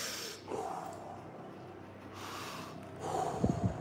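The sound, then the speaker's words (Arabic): Sharp nasal snorts and gasping breaths from a person mimicking breathing exercises. A few quick, fairly faint bursts are separated by quieter stretches. “يقف ويعمل تمارين تنفس من بتاعة ابراهيم الفقي.”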